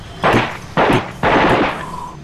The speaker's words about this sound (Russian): Затарабанил над головой крупнокалиберный пулемет, сдирая огромным рашпилем активную защиту с брони вражеской боевой машины.